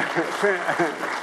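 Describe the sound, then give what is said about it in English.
An audience gives a brief round of applause, a soft, steady patter of clapping heard beneath a speaking voice. “Give him one more round of applause.”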